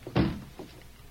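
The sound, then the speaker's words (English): A safe door shuts with one dull, heavy thunk, then a softer knock follows as it is locked, with quiet background between. “Now, I'll close and lock the safe.”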